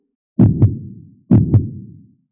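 Heartbeat sound effect pounding like a big drum: two loud, deep beats, each a quick double thump with a fading low rumble, alone with no talk.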